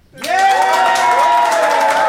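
A live audience bursts into applause and cheering to cast a vote, with sudden loud clapping and rising whoops that hold steady to the end.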